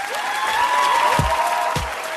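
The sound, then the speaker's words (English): Applause from a poetry-reading audience in New York City: a steady, fairly loud wash of clapping with a voice or two calling out over it and a couple of dull low thumps partway through. “New York City and Deaf Poetry, please give a warm round of applause to Mr. Miguel Algarin.”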